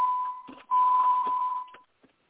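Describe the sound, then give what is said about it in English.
A phone beeping with alerts: a steady, high electronic tone that breaks briefly and resumes, then stops, followed by a faint click. “Phone's gone nuts.”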